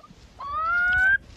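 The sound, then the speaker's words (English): A curlew guarding its chick on a farm on the Inishowen Peninsula, Donegal, gives a single drawn-out whistled call that rises slightly in pitch and holds steady before stopping abruptly, over a low background rumble. “This is the sound of a curlew guarding one of its fluffy, fragile chicks.”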